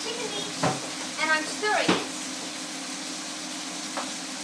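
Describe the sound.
A spoon stirs a mix of spices in a sizzling pan, with a few sharp clinks against the metal over a steady, quiet frying hiss.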